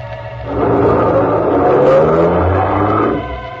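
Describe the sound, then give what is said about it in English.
A big car that looks like a hearse drives along with a deep, steady engine rumble. The rumble swells in, holds loud and unbroken for about three seconds, then eases off. “The car nosed east toward the river. He didn't talk. He just concentrated on driving.”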